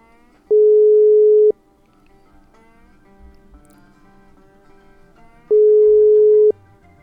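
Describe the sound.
Telephone busy signal on a call to a mobile phone: two long, steady mid-pitched tones, each about a second, separated by a long gap filled with faint background sound.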